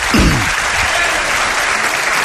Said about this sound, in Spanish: Jesús Callejo, os pido un aplauso para él.